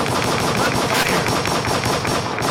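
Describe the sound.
Rapid machine-gun fire, used as a gunshot sound effect in a beat, rattles without pause as one dense, loud stream of many shots from start to end.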